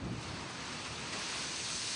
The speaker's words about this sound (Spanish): Y es fuerte viento, no se puede ir también para allá afuera.